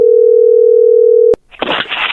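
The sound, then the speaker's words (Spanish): A telephone dial tone sounds as a call is placed: a steady, single-pitched hum lasting about a second, cut off by a sharp click and followed by rough, noisy crackling. “Bueno, ahí se está marcando.”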